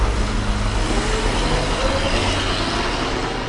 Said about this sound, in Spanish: se hizo de agallas y de sangre fría para encender el motor y arrancar literalmente el lugar a toda velocidad.